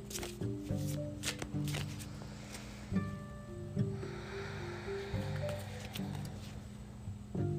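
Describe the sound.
Cards are shuffled and drawn from a tarot deck during a reading. Soft papery rustles and flicks come in a few bursts over a steady tonal background.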